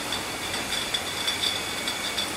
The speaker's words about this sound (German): Ein Vakuumheber fährt alle paar Sekunden neue Glasflaschen unter die kreisförmig angeordneten Füllrohre.